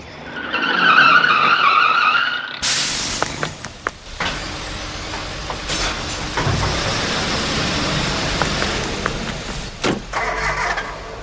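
A bin lorry collects rubbish from a wheelie bin, with a loud engine drone first, then a sudden rushing, grinding mechanical roar with clattering bangs that runs on for several seconds.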